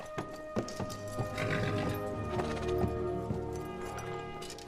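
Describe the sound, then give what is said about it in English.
Hooves clip-clop as a horse is ridden back onto a platform, with a whinny. Steady clopping and snorting-like bursts run throughout at moderate loudness, with no voices. “He looks down at Larry from his horse and smiles gently, then rides his horse back onto their platform.”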